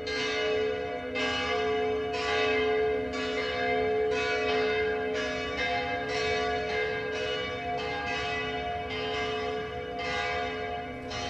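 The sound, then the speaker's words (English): Church bells ring in the city of Rijeka, Croatia, many strikes overlapping into a continuous, resonant peal with a steady rhythm that stays at an even level throughout, with no voices. “We're listening to bells of St. Mary's Church ringing in the city of Rijeka, Croatia.”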